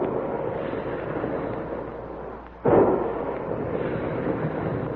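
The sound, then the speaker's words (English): Big guns fire with a heavy boom: a steady, low rumbling roar dips briefly, then one loud blast bursts in and the thunderous rumble carries on. “Big guns, hear them?”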